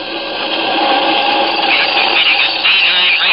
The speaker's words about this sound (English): Orders are snapped quickly. Controls are engaged. The ship begins to throb with the unleashed power of its rocket motors.